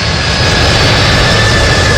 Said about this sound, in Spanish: Es la primera vez que el avión Lockheed C-5M Super Galaxy, que moviliza el Departamento de Defensa para el transporte de carga militar pesada a cualquier parte del mundo, surcó el espacio aéreo ecuatoriano.